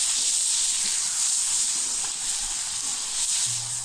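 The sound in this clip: Food sizzling in oil as it browns, with a sprig of thyme added to the pan: a steady, loud hiss with no pauses.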